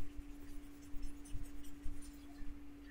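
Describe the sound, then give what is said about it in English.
An eraser rubs across a small whiteboard in a few quick scrubbing strokes. The swiping is faint and papery, with a steady low hum underneath. “I need to get my uh, little whiteboard doohickey back here. And uh, let's erase all these things.”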